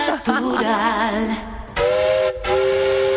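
Steam train whistle sound effect: loud, sustained harmonic blasts over hissing steam, the first wavering in pitch, then steadier held tones broken by a brief gap.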